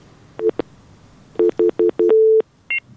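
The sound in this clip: Telephone line tones play as a listener calling from Helmand is connected: a couple of quick beeps, then a run of short evenly spaced beeps, a longer sustained tone and a final higher-pitched beep.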